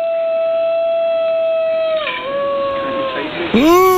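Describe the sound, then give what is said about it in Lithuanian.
A New Guinea singing dog howls in a long, clear, tonal note with no other sound. The pitch steps down about halfway through, then dips and sweeps back up at the end. “Oi, kokios liūdnos dainos. Čia buvo įrodymas, kad toks yra gvinėjas dainuojantis šuo.”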